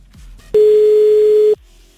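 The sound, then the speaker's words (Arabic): A telephone ringback tone from a call that goes unanswered: one steady, mid-pitched electronic tone lasting about a second, alone in near silence. “يا تالا يا تالا ردي يا تالا. طيب نرجع نتصل بعد شوي بتالا. ما ردت تالا.”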